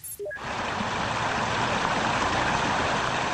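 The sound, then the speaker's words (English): Rushing, splashing water noise from cars driving through floodwater on a flooded roadway in North Bend, Washington. A steady, loud wash of sound fills the whole clip after three short rising beeps at the very start. “So that's the sound of cars being flooded on the roadway in North Bend, Washington.”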